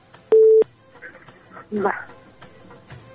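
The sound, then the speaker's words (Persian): A dropped telephone call produces a single short, steady line tone, followed by voices talking over the connection. “میشه از طریق گوشی صدای ما را بشنوین امکانش هست فکر میکنم خود به خود تلفنشان قطع شد.”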